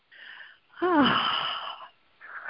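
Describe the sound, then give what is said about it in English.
A person breathes during a pause, with a short breath, a longer wheezy, slightly voiced exhale, then another breath starting. The breaths are moderately loud and heard alone. “So we'll just breathe for a second here while you consider.”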